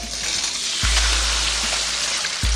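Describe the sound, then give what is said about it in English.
An egg fries in a hot pan, recalling the 1980s anti-drug ad, with a steady, fairly loud crackling sizzle that runs without pause over a low hum. “You know, it's got that egg. This is your brain. This is drugs. And then they fry it.”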